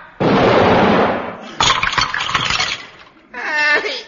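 Comedy sound effect of a photograph being fired at the enemy from a barrel: a loud whooshing blast, then a crackling, rattling clatter, ending with a shorter burst.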